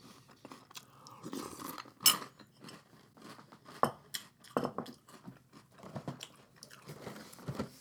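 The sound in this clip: Someone chews crunchy French toast-flavored cereal made of small toast-like squares. Many irregular crisp crunches and bites sound softly, with a few sharper louder cracks, and there is no talk.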